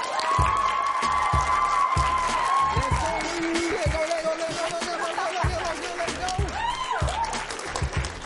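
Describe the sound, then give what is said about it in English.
A student audience cheers and applauds a guest's entrance with sustained, loud clapping mixed with whoops and shouting voices. “Let's welcome Rashawn Melvin,”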